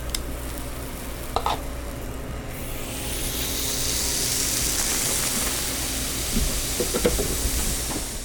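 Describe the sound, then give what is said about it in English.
Waffle cone batter sizzles on a hot waffle iron. The hiss swells and brightens after the first few seconds and then holds steady, with a few light clicks and no talking. “And then now we're ready to get the waffle cones started. So I'll just scoop up some batter, and then I just place it on the center of the iron.”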